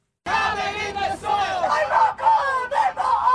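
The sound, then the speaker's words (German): Demonstrators at a climate protest in smoke-hazed Sydney chant together in a loud, rhythmic crowd chorus of raised voices, with short pauses between repeated phrases. “Kein Öl und keine Kohle mehr. Stoppt den CO2-Ausstoß, rufen Demonstranten im rauchverhangenen Sydney.”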